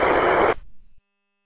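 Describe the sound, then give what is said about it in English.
Static squelch tail from a handheld radio transceiver: a loud, even hiss lasting about half a second that cuts off sharply, then a faint low rumble that dies into silence. “I guess I had a little squelch tail on that.”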